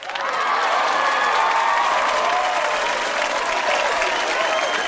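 A studio audience applauds and cheers as a comedian guest is welcomed onto the show. The clapping is loud and continuous, with scattered whoops, and holds for about five seconds.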